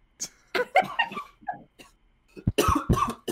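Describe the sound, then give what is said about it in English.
Harsh, loud coughing in a string of rough bursts, an early bout of several coughs and then a denser, heavier fit toward the end. “And then you cough after that.”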